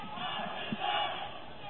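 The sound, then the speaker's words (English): A raucous basketball crowd chants "we will win" in unison at a championship game, a loud, continuous rhythmic roar of many voices that swells briefly near the middle. “And I believe that we will win chant from that raucous crowd you referenced a moment ago.”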